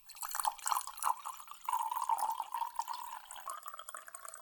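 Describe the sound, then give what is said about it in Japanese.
Hot water is poured into a separate tea bowl while preparing powdered tea: a quiet, steady trickling stream with light splashing that runs continuously throughout. “お次はお湯を別の茶碗に注ぎます。”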